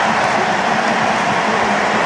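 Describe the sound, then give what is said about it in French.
A stadium crowd gives Kylian Mbappé an ovation as he is substituted off during a France match, producing a thick, unbroken roar of applause and voices at a constant loud level. “Écoutez l'ovation pour Kylian Mbappé. Et il n'y a que 3000 Français, je vous le rappelle, dans ce stade. C'est une ovation mondiale.”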